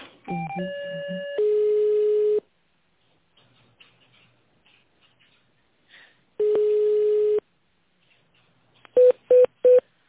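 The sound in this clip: Telephone line tones while a call is being transferred: a few quick stepped tones, a long steady tone, a quiet pause, a second long tone, then three short beeps at the end, with no voices.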